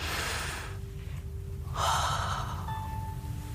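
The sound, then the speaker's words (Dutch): A human gasp as the first person draws breath: a loud, breathy intake mid-clip, then quieter breathing, over a steady low background hum. “De allereerste mens begint te ademen zo.”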